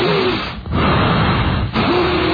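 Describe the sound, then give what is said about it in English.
A voice imitates heavy breathing on a phone call: loud, harsh, muffled breaths that run almost continuously, broken by two brief pauses. “Pronounced breathing.”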